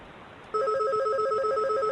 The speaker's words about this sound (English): We have like 10 phones here and they're all ringing.